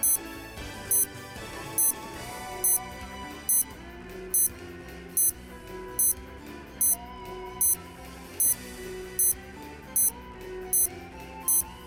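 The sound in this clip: A bomb timer counts down with short, high beeps repeating at an even pace, roughly one per second, many in a row over a dense, continuous music bed.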